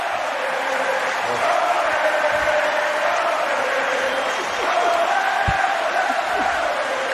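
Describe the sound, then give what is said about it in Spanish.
Crowd giving an ovation, with cheering and applause blending into a dense, steady roar that holds at an even level for the whole stretch without a break. “La ovación del No Pump.”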